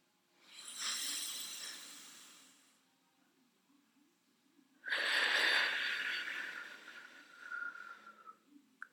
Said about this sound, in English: when you inhale, you can feel your lower belly expanding first. So let's try that.